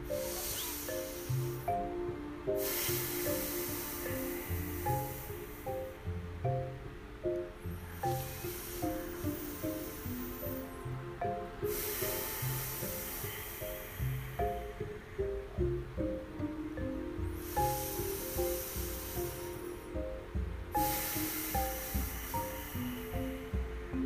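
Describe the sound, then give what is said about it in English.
Deep breaths drawn in and exhaled through the nose in a guided breathing exercise: a few slow, airy swells of soft hiss rising and falling over a faint, steady rhythmic background. “So that was our 3 deep breaths in and 3 deep breaths out, inhale and exhale and out through our nose.”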